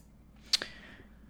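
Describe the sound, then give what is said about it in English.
A computer mouse clicks on a link, one faint, sharp tick followed almost at once by a softer second tick, alone against near silence. “Can you click on the Amleth link?”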